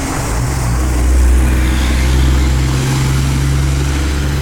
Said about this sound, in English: as a big truck passes by